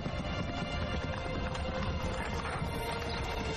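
Hooves of a horse-drawn carriage clip-clop in a continuous stream of many hoof beats, blended into a dense, steady wash of noise that stays level throughout.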